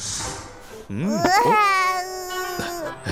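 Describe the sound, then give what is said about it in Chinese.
A young child crying, a loud, high-pitched wail with wavering, rising and falling pitch that begins after a short stretch of quieter background noise and continues to the end. “怎么哭了？”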